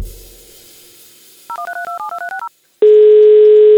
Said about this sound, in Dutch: Ik ga eens bellen met huisartsen en bedrijfsartsen.